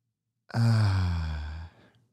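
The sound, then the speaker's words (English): A single deep breath exhaled through the mouth at the end of a calming breathing exercise. It is one long, sigh-like outbreath, fairly loud and alone, starting sharply and tapering off over about a second. “Now for this third and final breath, go ahead and breathe in and feel the character melt off of you as you exhale.”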